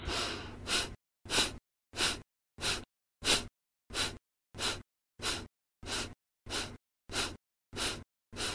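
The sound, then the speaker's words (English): Rhythmic breathwork through the nose: twelve short, forceful nasal breath bursts in an even, steady pulse, each separated by a brief silence, breathy and hissing, with no talking. “We're going to be doing the bliss breath. And so we're going to be breathing in and out through the nose. As you breathe, you want to focus on the exhale and let the inhale be automatic. And so it's going to sound like this.”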